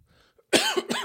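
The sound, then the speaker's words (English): Two harsh coughs, the first longer and the second a shorter burst soon after, loud and alone after a near-silent pause. “Credit to me for only coughing twice so far.”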